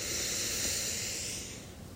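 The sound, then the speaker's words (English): A long, deep breath is drawn in through the nose during a guided relaxation exercise, a soft airy hiss held steadily for about two seconds before tapering slightly at the end. “let's take a nice deep breath in.”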